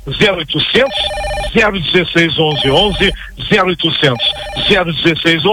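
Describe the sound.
An electronic telephone ring signals incoming calls, sounding in two short bursts under loud, continuous talking.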